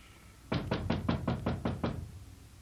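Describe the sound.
Knocking on a door: eight quick, evenly spaced, loud raps in a steady rhythm, with no voices.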